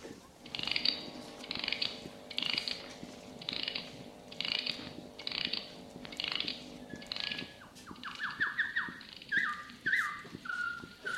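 Clockwork mechanism of a stuffed bird singing in a cage: a faint, even series of ratcheting, whirring bursts that gives way near the end to quick, high, chirping notes.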